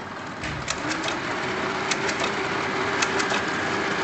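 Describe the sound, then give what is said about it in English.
A large machine with three blocks of cogs set in rows cranks up, giving a steady mechanical whir broken by a few sharp clicks. “And it's cranking up in front of my very eyes here. And what's happening, if you imagine, there are three blocks of cogs.”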